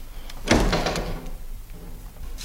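A door being opened, a single solid clunk of the latch and panel followed by a softer, fading rustle and faint low rumble, with no talking.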